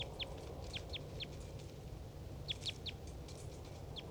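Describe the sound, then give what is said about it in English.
Faint, brief high chirps of a wild bird come in quick clusters, with a pause between two groups, over a steady low rumble of background noise. “Wild bird. Decoy.”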